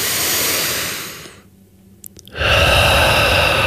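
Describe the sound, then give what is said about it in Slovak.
A huge deep breath taken in and out during a calming exercise. A long, loud, hissing inhale fades into a short quiet pause with a few faint clicks, followed by a strong, breathy exhale. “A chce to jeden obrovský nádych, výdych.”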